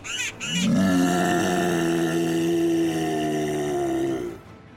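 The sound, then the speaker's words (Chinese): A big black bear roars once in a long, loud, sustained cry with strong low harmonics. The call holds steady for about four seconds, then cuts off, and no voices are heard. “大黑熊的一声吼叫让所有的动物们瞬间安静下来”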